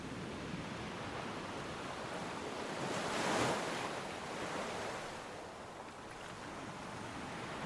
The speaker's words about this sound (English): As the spray from the waves is licked upwards by the prevailing wind,